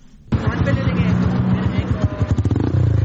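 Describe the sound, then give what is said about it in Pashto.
Motorcycles ridden by touring riders in Charsadda: a loud, low throbbing engine rumble with pulsing revs and some clatter, mixed with a babble of voices. “دا په چارسدې کې موټر سایکل سوار سیلانیان دي.”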